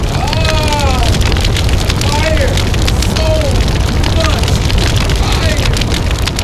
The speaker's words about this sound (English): Then there was a fire.